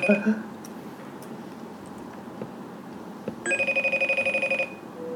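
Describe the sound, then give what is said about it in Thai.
Telephone ringing as an outgoing call is placed: one rapid burst of bright, trilling electronic pulses lasting about a second, rising clearly above a low, steady background hiss. “เอาไหมเดี๋ยวโทรไปล่ำลาคุณเบิร์กกันแล้ว”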